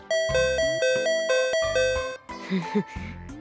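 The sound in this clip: A bright electronic doorbell-style ding-dong chime rings out in a drama scene, its clear tones repeating in a steady pattern over a low, thumping backing, then giving way to softer, mixed sounds near the end.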